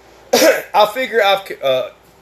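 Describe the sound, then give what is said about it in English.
Throat clearing: a few loud, rasping, partly voiced bursts with short breaks between them, no words spoken. “let me clear my throat.”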